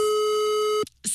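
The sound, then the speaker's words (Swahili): A telephone tone sounds while a number is being dialled: one long, steady, even beep lasting most of a second, then a short silence before another tone begins. “Watch right now, nianze ku dial kwanza.”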